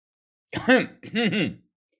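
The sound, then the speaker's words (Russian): A voice imitates a bodyguard coughing: two short, rough throat-clearing coughs, the second longer and broken into two pushes, loud and alone against silence. “закашлялся рядом стоящий телохранитель”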